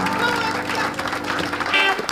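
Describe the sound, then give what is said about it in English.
A big round of applause from an audience at a show at PJ's, a short burst of dense clapping and crowd noise that holds steady throughout. “How about a great big round of applause?”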